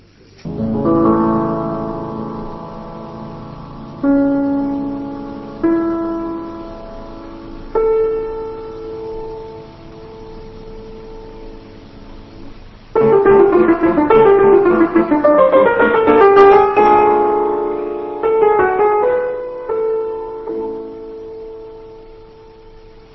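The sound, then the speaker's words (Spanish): Beethoven's Piano Sonata Op. 31 No. 2, the 'Tempest', played on solo piano by a pianist: a rolled opening chord and several sparse, held notes, then a loud, rapid passage that thins back to a few ringing notes. “de esta sonata opus 31 número 2, La Tempestad, que suena así.”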